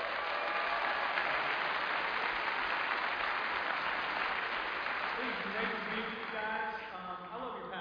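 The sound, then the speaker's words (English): Audience applause welcoming a speaker onstage: dense, steady clapping fills the whole stretch, easing slightly near the end as a voice begins to emerge. “So I want you to put your hands together and welcome Caleb Kaltenbach.”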